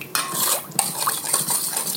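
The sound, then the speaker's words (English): A pot is stirred as ginger is shaken in, giving a steady scratchy rustle with light metallic clinks and scrapes of a utensil against cookware, fairly quiet and without talk. “All right, I'm just shaking some in. And stirring.”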